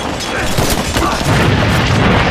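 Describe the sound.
Explosion of a thrown bomb: a loud, dense roaring rumble that fills the whole clip and holds steady without a sharp onset.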